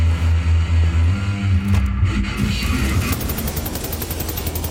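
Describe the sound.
Enemy soldiers fire on the player in the video game Wolfenstein: The New Order. Loud gunshots sound over a low rumble, then turn into rapid, continuous automatic fire toward the end.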